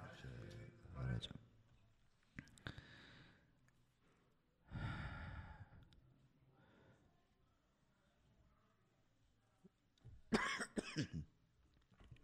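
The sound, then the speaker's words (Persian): A person with a worsening cough lets out several harsh coughs and throat-clearing bursts, with quiet breathing and sighs in the gaps between them. “عذرخواهی میکنم پیشا پیش به خاطر اینکه من سرفم زیاد شده.”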